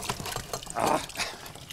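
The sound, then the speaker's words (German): Water splashes out of a bucket held by hand as it is filled, a single soft whooshing surge mid-clip amid faint trickling. “Den Eimer in die Hand. Ist ja logisch, dass es daneben spritzt.”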